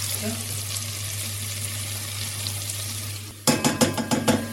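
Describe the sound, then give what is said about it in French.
Butter sizzling in a pan before onions are added: a steady, even hiss that turns into sharper, louder crackling bursts near the end. “Ah, j'entends le beurre qui chante là. Je vais mettre les oignons dans le beurre.”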